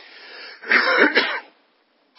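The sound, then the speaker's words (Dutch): A single rough cough from a speaker who says he sometimes suffers from it. It is a raspy burst of about a second that stands alone, then silence and a faint click at the end. “Excuus voor mijn hoesten.”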